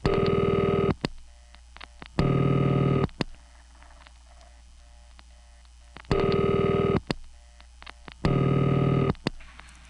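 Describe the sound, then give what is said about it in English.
Telephone line tones heard when dialing a radio station's old call-in number after it was changed in Atlanta in 1978: four loud, steady tone bursts of about a second each, in two pairs separated by a stretch of quiet line hiss. “Well, for a while there, if you called their old phone number, you'd get this.”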